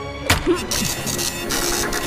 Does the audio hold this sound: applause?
no